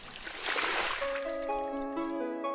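Water rushes from a garden hose used to wash windows, a brief hissing spray that fades as sustained tones take over.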